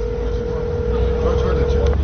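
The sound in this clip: A crackly telephone line on a poor-connection call to Aleppo: a steady mid-pitched tone hums under dense static and rumble for about two seconds, then cuts out just before the end.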